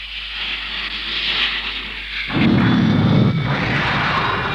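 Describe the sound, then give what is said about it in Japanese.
A rifle fired in an animated robot battle: a steady hiss gives way midway to a sudden loud, rumbling blast that holds on to the end, with no voices. “ライフルを発射します。”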